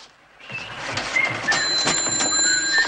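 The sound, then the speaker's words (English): A wall-mounted machine at a bus depot takes in a slip of paper with a sustained mechanical whirring and clatter, plus faint thin high-pitched tones over a steady background. “puts a slip of paper into a machine on the wall.”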